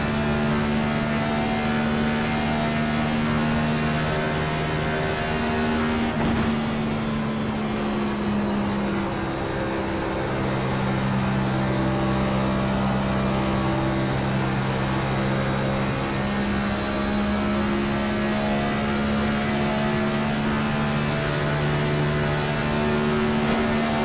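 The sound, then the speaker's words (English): A race car exiting the pits gives off a loud, sustained engine drone with strong harmonic tones that shift in pitch a few times, holding a steady volume with no voices. “Heads up, there's a car exit in the pits.”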